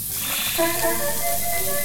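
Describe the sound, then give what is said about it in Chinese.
Food is pan-frying until crisp on both sides, giving a continuous, even sizzling hiss at moderate level with no clear breaks. “就是要这样子煎的，这样两面的恰恰，这个才是对的”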